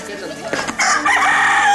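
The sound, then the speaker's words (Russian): A rooster crows on a farm: a quieter lead-in, then one loud, hoarse, drawn-out call that fills the second half. “Нравится, когда кричит петух.”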